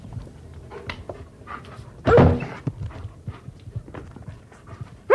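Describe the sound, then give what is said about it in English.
A German Shepherd dog barks with one loud, sharp bark over faint background noise. Another bark starts right at the end. “Well, I just happen to have a German Shepherd, and I take him with me when I go running.”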